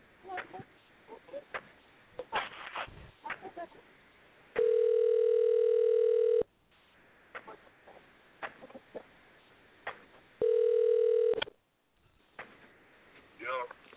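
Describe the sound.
Telephone dial tone sounding twice between stretches of people talking: a loud, steady, even hum lasting about two seconds, then a shorter one of about one second.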